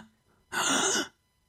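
A person gasps once, deliberately, as a demonstration: a short, breathy, airy intake of breath lasting about half a second. It is surrounded by near silence.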